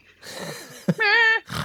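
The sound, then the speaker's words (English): A person imitates a goat bleat, giving one brief, wavering, nasal voiced call after some low vocal noises. “That wasn't like a really good goat. No, I want to apologize.”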